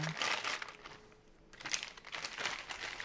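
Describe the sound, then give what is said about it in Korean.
Rough rasping of leftover parmesan cheese being grated, a steady scraping that eases off briefly midway before picking up again. “제 남은 파마산 치즈를 다 갈아서 뿌릴게요.”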